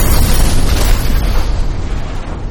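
A booming explosion sound effect: a loud, deep, rumbling blast that stays heavy in the low end while its hissing upper edge slowly fades away.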